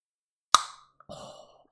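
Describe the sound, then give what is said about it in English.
A single sharp crack as an energy drink can is opened, followed by a short, soft fizzing hiss that fades out. “I'm going to quickly crack open my drink. Sorry, everybody. Do you want me to see if the noise catches on?”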